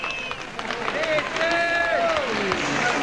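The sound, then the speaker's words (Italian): A crowd applauds and cheers as porters hoist and turn a large carried processional machine at a street festival. The clapping is a dense, steady roar with tonal calls rising through it, and a voice talks over the crowd. “ecco gli applausi, e questa è veramente la cosa più bella.”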